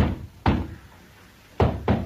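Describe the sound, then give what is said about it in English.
Knocking on a door: a few dull, low thuds, soft overall. Two come close together near the end after a pause, and no voices are heard. “Who's that knocking at my door?”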